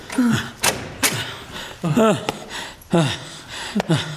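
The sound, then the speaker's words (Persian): A door opening, marked by a few dull clunks and thuds, while breathy, whimpering voice sounds rise and fall around them. “در باز شد ولی انگار کسی از اون طرف درو باز کرد.”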